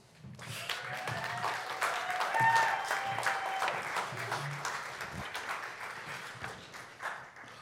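An audience applauds to welcome three invited guests with a faint patter of clapping that swells toward the middle and then slowly tapers off.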